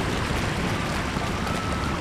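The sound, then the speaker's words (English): Steady rushing water from two waterfalls, one larger than the other, beside a small wooden bridge, feeding a small stream through a tiny village on a calm night. It makes a continuous, even roar with no breaks. “I'm crossing a small wooden bridge here, and if I turn to my left, there's a waterfall, and on my right, there's an even bigger waterfall”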